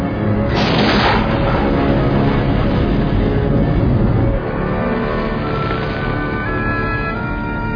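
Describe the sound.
A starship firing its aft torpedoes: a loud, sustained rushing blast with a brighter burst near the start, then a steadier rumbling tail.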